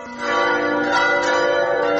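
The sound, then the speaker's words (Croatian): Church bells of a Serbian Orthodox church in Cetinje, Montenegro, ring loudly and continuously, their sustained metallic tones overlapping into a dense, shimmering wash with no talk. “Teško je danas ođen slušati ova zvona, a ne smiješ im prisustvovati.”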